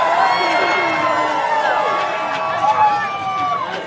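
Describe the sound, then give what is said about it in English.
Crowd cheering at a trucker rally, a dense continuous roar of many voices with shouts and whoops rising above it. “That's a trucker rally right now. It's probably live. It's probably all over YouTube.”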